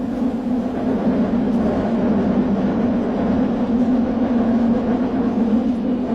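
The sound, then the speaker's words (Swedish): A London Underground train in motion gives a steady, loud, low rumble with a constant hum and a rattling wash of track noise, with no voices. “Idag finns det tack och lov tunnelbana i London som sköter mycket av resandet under”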